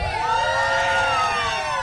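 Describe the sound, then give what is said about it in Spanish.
A crowd shouting and cheering at a lively gathering: a loud, sustained mass of overlapping voices with high whoops that runs through the whole clip. “Oigan, acá estamos. ¡Grito de toda la gente que está aquí!”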